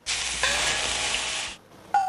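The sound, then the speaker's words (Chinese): Food pan-frying until golden gives off a loud, bright, steady hiss. The sizzle starts abruptly, cuts out briefly, then surges back in. “我们差不多要煎了， 来吧， 这样子，”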